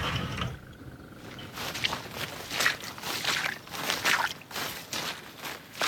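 Footsteps of people walking into an old marsh area make a faint, irregular series of soft steps with no talk.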